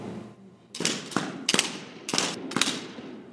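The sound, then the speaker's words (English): Simulated gunfire from imitation AR-15 rifles on a virtual firing range at Fort Carson Army Base sounds as several bursts of sharp, loud cracks, some clustered in quick pairs, with short pauses between. “The tour ends with a visit to a virtual firing range. Sergeant Chris England has the teachers lay down with their imitation AR-15s.”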